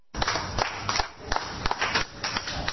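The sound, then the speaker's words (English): Sparse clapping from an audience, a few scattered hand claps rising briefly over a low murmur for a couple of seconds rather than full applause. “I don't think that was 100 claps, do you?”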